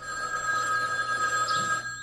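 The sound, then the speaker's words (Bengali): A telephone rings with a steady, high electronic tone that holds for the whole moment, moderately loud, with no voices. “10 মিনিটের মধ্যে ফোনটা বেজে উঠল।”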